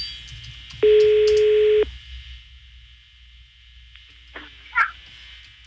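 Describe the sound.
Ringback tone on an outgoing phone call: one steady, loud electronic tone lasting about a second, followed by faint line hiss and a couple of brief clicks.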